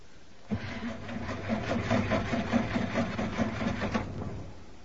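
A car engine cranks but fails to start: a steady, rhythmic chugging of the starter turning over, with regular pulses for about three and a half seconds before it stops, heard alone.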